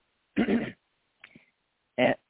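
Two short, loud coughs with a quiet throaty sound between them, each burst rough and abrupt against silence.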